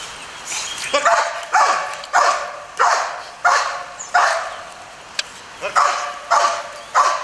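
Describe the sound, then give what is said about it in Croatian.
Police service dogs bark in a loud, repeated run of sharp barks at a fairly regular pace, with some barks overlapping. “Važan član jedinice su i službeni policijski psi.”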